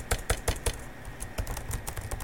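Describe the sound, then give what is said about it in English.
Rapid clicking on a computer keyboard while comments are typed: a few loud, evenly spaced keystrokes, then a denser run of quicker, softer taps. “I can type in here any of my comments in here.”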